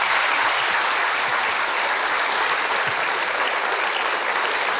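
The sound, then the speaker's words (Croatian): An audience applauds at a memorial tribute to a musician, a dense and even clapping that stays full and steady throughout without a pause. “Pa evo jedan pljesak, evo i za njega.”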